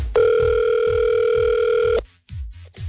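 A single steady ringback tone on an outgoing telephone call, loud and even for about two seconds before cutting off, followed by a short silence.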